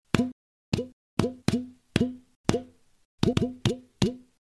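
Hollow glunks from a flat hand slapping the front of a tube, about ten low, dull plops in an uneven rhythm, some spaced apart and some in quick pairs.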